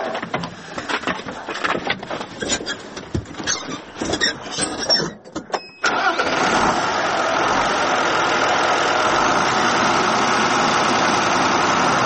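Tractor engine running in a grain field at night: a loud, rough mechanical clatter with irregular knocks, then a sudden shift into a steady, even, continuous drone that holds unchanged to the end.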